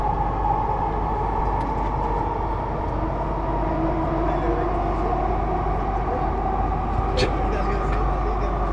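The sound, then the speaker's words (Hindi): A metro train travels between stations toward Chawri Bazaar, giving a loud, continuous low rumble with a steady hum on top. A couple of brief metallic clicks cut through partway along. “Agla station, Chowri Bazaar. Next station is Chowri Bazaar.”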